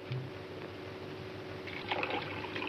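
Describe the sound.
Water is poured into a lemon drink mixture, a faint, continuous trickle that swells slightly louder toward the end.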